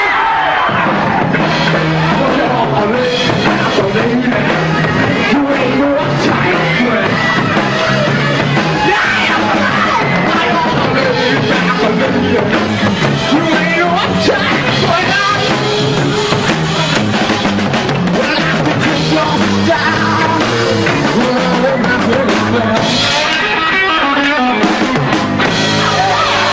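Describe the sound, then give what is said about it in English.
Noisy party crowd yelling and whooping in a loud, unbroken din that never lets up. “I got a complaint from a Mr. Smith about a noisy party.”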